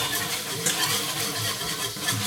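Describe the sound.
A whisk stirs flour into a roux in a wide pot, giving a continuous soft swishing and scraping with no clear breaks.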